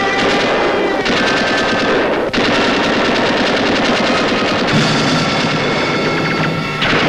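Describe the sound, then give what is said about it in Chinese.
Machine gun fire during a night battle at a bridge: loud, continuous rapid bursts of automatic gunshots that hammer on without pause across the whole stretch. “急忙命令我军向敌人射击。”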